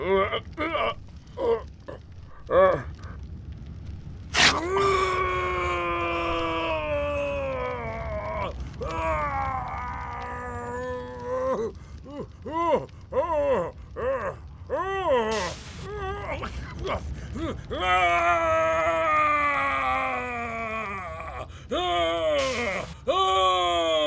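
A person groans and cries out in pain in many strained, drawn-out vocal bursts with wavering pitch, broken by short pauses and sharp clicks.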